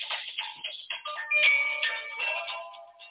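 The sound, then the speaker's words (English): A mobile phone ringtone plays a faint, bright electronic melody of quick repeated notes that runs continuously through the whole stretch. “Something's making noise. Oh. Yeah, no, that's my phone. I got to turn my phone.”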